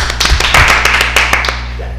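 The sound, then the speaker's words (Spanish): Audience clapping cued as euphoric applause: a run of sharp, uneven claps and taps, many distinct hits rather than a dense wash, over a steady low hum. “Sí, claro, le voy a aplicar aplausos, pero van a ser eufóricos, ¿sale? Aplausos eufóricos,”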